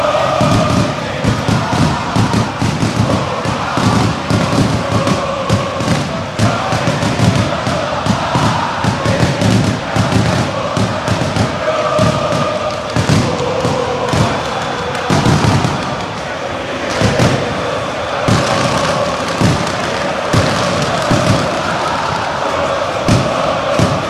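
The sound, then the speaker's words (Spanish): A packed stadium crowd erupts as two rival football teams take the pitch at a derby, keeping up a loud, sustained roar with many sharp bangs and thuds from fireworks and firecrackers. “Ahora sí. Boca y River en la cancha, señores, y explota el estadio.”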